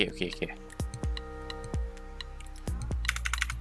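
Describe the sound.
Keys being pressed on a computer keyboard to save and run code, a few sharp, separate clicks spaced unevenly under a voice speaking steadily.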